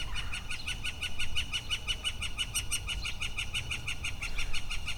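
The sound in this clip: A bird calls in a rapid, even series of many high, sharp chirps repeating steadily throughout, moderately loud over a low background rumble.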